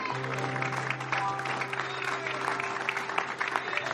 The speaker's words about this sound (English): Why don't we give the Lord a hand clap of